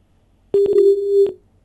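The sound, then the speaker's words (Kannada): A telephone's call-disconnected tone sounds as one steady, low, pure beep lasting just under a second, marked by a few sharp clicks as it starts and another as it ends, with silence before and after. “Hello, ಕರೆ ಕಡಿತಗೊಂಡಿದೆ.”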